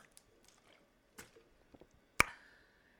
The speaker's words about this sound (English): I'ma just sip my water on that